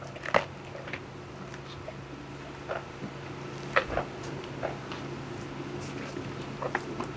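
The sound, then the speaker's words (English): A giraffe chews corn while being fed from a viewing platform: a few soft, crisp crunches and clicks come at irregular intervals over a steady low hum, with no talking. “And this is the sound of giraffe chewing.”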